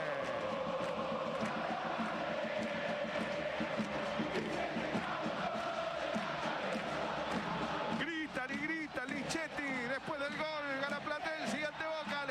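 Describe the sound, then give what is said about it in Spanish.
Platense football supporters roar at a match against Boca, a continuous, dense crowd noise that stays loud throughout while an excited male commentator talks over it. “tiene la pelota Boca, tiene la pelota Dilolo, se vuelve loco el público de Platense.”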